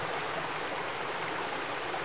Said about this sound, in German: Geheimnisvolle Wälder. Rauschende Bäche.